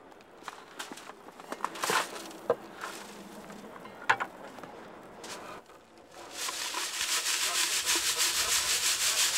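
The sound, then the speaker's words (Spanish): Soil sifted by hand through a fine mesh screen at an archaeological screening station. Scattered scratches and rubs come first, then a steady, rhythmic rasping hiss as the dirt is worked through, growing louder and continuous. “La suciedad se elimina cuidadosamente y se llevan a una estación de cribado, donde se clasifica a mano a través de una malla fina.”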